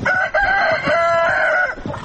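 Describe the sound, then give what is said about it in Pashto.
Chickens and roosters, about fifteen, in a house courtyard, giving loud harmonic clucking and crowing calls, with one long drawn note in the middle and shorter calls before and after. “د کور په انګړ کې 15 چرګي چرګان په خاورو کې مشو کې وهي.”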